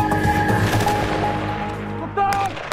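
Bursts of military gunfire from army training exercises, a few sharp cracks sitting over a steady, dense background rumble.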